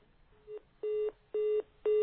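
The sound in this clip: Telephone busy tone after a caller's line is cut off: four evenly spaced mid-pitched beeps, the first softer than the rest, each held for about a quarter second with short silences between.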